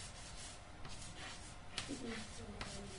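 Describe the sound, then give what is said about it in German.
Faint scratchy strokes of writing on a board in a lecture, a few short rubbing marks that stay quiet throughout. “ich kann die mal schnell in die Tafel schreiben. Hoppala. Ich schreibe das mal hier in die Seite.”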